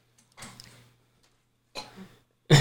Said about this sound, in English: it's a good thing we have that little cough button.